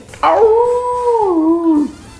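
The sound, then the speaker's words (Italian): A single wolf howl holds a smooth, sustained tone for about a second and a half. It wavers slightly and then drops off at the end, loud and alone. “è un lupo che ulula, giusto?”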